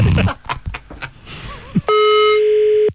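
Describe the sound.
Brief voices, then a phone's outgoing ring tone sounds during a prank call, a single steady electronic tone burst that holds to the end.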